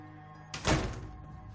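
A door closes with a single dull thunk, a short, moderately loud impact that fades into a brief low rumble.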